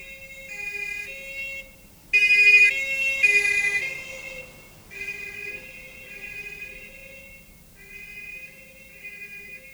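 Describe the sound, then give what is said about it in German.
Police car siren sounding a repeating two-tone pattern that alternates between high and low, briefly louder near the start and then steady and fainter, with no voices. “Was war das? Was meinen Sie? Die Sirene. Polizei, nehme ich an.”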